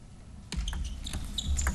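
Sharp clicks of a table tennis ball during a serve in a China versus South Korea team quarterfinal, a few quick taps rising over a low, steady crowd murmur.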